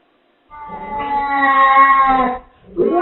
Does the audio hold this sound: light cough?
no